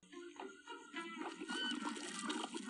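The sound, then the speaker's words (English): A camel pushes out its dulla with a wet, floppy gurgling, a bubbling, burbling sound that grows louder and denser over a couple of seconds. “The doula. Is that what the sound was? The like floppy wet thing? Ew.”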